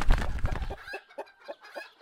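A rooster clucks: a louder, fuller burst of fowl noise opens, then a few short, separate clucks follow at a fairly even pace.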